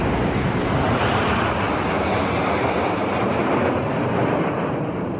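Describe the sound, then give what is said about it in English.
Royal Air Force military aircraft roar past in a flypast at a Platinum Jubilee celebration, a loud, broad and steady engine rumble that holds throughout and eases only slightly at the end. “That's the sound of the Royal Air Force at the Platinum Jubilee for Queen Elizabeth II”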